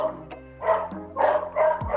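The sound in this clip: A dog barks a few times in short, high, yappy bursts separated by brief pauses, fairly loud and clear.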